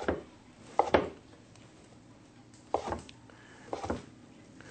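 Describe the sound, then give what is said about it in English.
Knife cutting blocks of seitan into small strips: a few crisp, fairly faint chops land in short clusters separated by quiet pauses. “But we're going to take a couple of blocks of seitan here, and we're going to cut them into small strips.”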